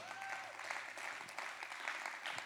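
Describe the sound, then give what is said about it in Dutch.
A church audience gives the band a round of applause: dense, steady clapping throughout, fairly quiet. “Kunnen de Bent een groot applaus geven?”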